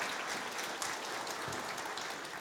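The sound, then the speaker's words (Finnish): Applause from a live audience at a Finnish radio event with karaoke-style singing: a soft, even patter of many hands clapping, steady from start to finish. “Kiitos oikein paljon. Aplodeja.”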